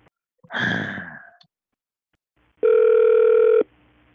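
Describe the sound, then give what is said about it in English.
A single steady telephone ringback tone lasting about a second as a call is being placed, preceded by a breathy sigh and a short silence. “Supposed to be dialing.”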